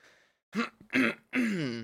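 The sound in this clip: A person clears their throat as if something is stuck in it, with a few short, rough, voiced bursts separated by brief pauses, at a fairly quiet level.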